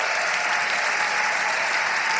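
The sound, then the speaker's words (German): Audience applause at a live interactive stage show: dense, even clapping holds steadily at a loud level throughout, with no voices rising above it. “Applaus, dicker Applaus.”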